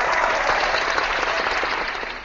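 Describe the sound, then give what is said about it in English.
Crowd applause at the New York Comic Con 2015 convention: a steady wash of many hands clapping, even and sustained, thinning and fading slightly toward the end. “that applause is from Agent 70, who was there on hand”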